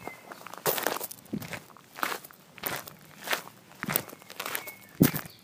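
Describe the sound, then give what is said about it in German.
Footsteps walking down a staircase from the roof of a large auditorium: a faint, steady series of soft shuffling steps with a few sharper scuffs, and no talk. “Wir sind jetzt die Treppe heruntergegangen vom Dach des großen Auditoriums direkt hinein.”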